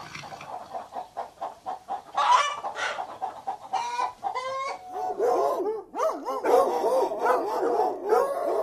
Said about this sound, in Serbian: Onda za kukuriče petao, probudi sve životinje u gradu i u zoološkom vrtu i u okolini.